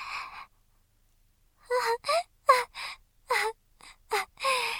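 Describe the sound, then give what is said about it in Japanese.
A person crying and wailing: one brief sob, a pause, then a run of many short, gasping, voiced sobs with a wavering pitch, each breaking off sharply. “先輩、そんなに泣かないで。”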